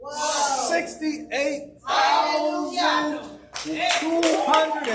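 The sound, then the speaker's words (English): Audience clapping at a church service, an audience applauding continuously with raised, cheering voices mixed into the dense patter of hands. “Now, see, no, don't be clapping. Don't be clapping.”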